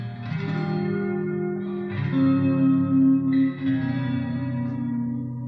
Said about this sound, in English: I'm not going to need as much treble here, so I'm going to roll that off a bit. Same idea here. If I bring too much reverb in as well,